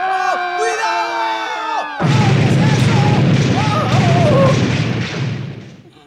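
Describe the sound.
A spaceship explosion effect for a spaceship destroyed by enemy fire: warbling electronic tones suddenly give way to a loud, broad blast that holds as a dense roaring rumble with scattered higher tones, then fades toward the end.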